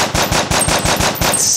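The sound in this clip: Machine gun gunfire sound effect: a rapid, evenly spaced string of loud, punchy shots, roughly seven in quick succession, alone with no voices.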